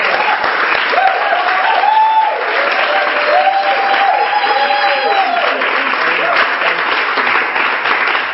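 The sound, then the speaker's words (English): An audience applauds a prophetess on an interview show, a dense, steady wash of clapping that runs unbroken for the whole stretch while voices call out and talk over it. “Give her a big hand.”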